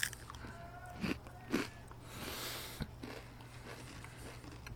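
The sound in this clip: Crisp crunching and chewing of a Triscuit cracker, an edge piece with a browned side. A few sharp bites stand out among softer chewing, faint and with no talk.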